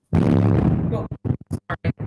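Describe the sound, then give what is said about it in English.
An explosion in Gaza during an interview: a loud, broad blast fills the first second, then short bursts of speech follow. “I can hear those explosions going off right near you.”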